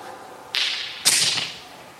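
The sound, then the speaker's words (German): Stones being thrown: two sharp, hissing whooshes, the second slightly louder, each cutting in suddenly and fading out over about half a second. “Lasst uns werfen den ersten Stein.”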